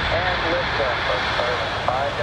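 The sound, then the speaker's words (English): A SpaceX Falcon 9 rocket launches at night from Cape Canaveral on a Starlink mission, producing a steady, dense roar that holds evenly throughout, with faint voices beneath it. “A SpaceX Falcon 9 rocket lit up the night sky for a spectacular launch”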